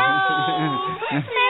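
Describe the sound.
Distressed crying in a tense dramatic scene, a loud voiced sob with wavering, strained pitch that breaks and catches briefly before resuming, lasting under two seconds.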